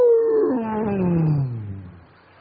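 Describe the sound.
A tiger's roar: a long, loud animal cry whose pitch slides steadily downward into a low, rough growl, fading over about two seconds.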